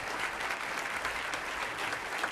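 Audience applause for jazz musicians, including a pianist and a bassist, as a steady, even wash of many clapping hands held at a fairly low level throughout.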